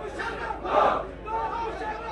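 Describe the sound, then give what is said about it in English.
A small crowd chants in unison outside Pakistan's Supreme Court. Massed voices carry a rhythmic cry at a moderately quiet level, swelling briefly near the middle. “The small crowd kept its spirits up with a favourite chant.”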